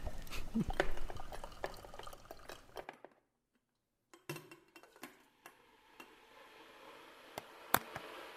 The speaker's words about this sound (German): Mach mir erstmal einen Kaffee. Per Hand mit Filter vom Trödel.